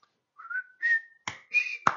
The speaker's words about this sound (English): along the way with the Andy Griffith show, at the beginning and at the end of every show, they have the whistle.